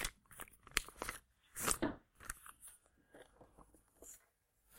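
Crisp crackling of a single sheet of paper being crumpled in the hand: a few irregular crunchy bursts of varying loudness, separated by brief quiet gaps.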